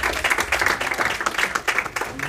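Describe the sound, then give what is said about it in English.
A church audience clapping for Jesus during a service, many hands in a dense, pulsing patter of sharp claps that rises and dips throughout. “Clap for Jesus.”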